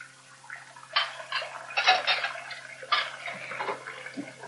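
Dishes being washed and dried: irregular bursts of sloshing water and clinking crockery, a few louder splashes among quieter rustling, fairly soft overall and without speech.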